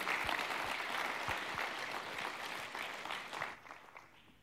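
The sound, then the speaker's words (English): Audience applause welcoming a guest speaker, a steady, fairly quiet wash of many hands clapping that tapers off toward the end. “So, can we put our hands together and welcome Mike as he comes?”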